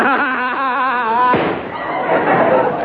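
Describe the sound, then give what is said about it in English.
A single gunshot as a man shoots himself in a comedy scene: one sharp, loud bang right after a voice, followed by a noisy, ragged tail. “He shot himself.”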